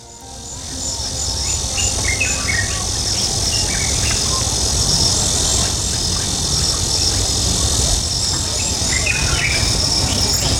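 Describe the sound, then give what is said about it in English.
Birds and insects chirp outside a house in the morning. A steady high insect buzz runs throughout, with many short bird chirps and calls scattered over a low background rumble. “the house feels eerily quiet this morning. I can hear the birds and bugs outside.”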